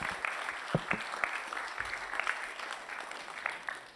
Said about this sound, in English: And I wonder if we can just make him feel welcome with a big hand as he comes to minister the word this